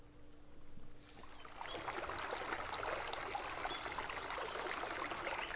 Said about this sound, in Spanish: Esa cortina de mar me gusta, ¿eh? Es como un arroyo.